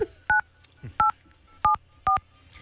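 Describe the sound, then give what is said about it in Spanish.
Four touch-tone beeps as a telephone is dialed, each a short, clear dual-tone keypad tone at a steady pace with brief pauses between, over a faint low hum. “Entonces, pónganme a marcar ahí”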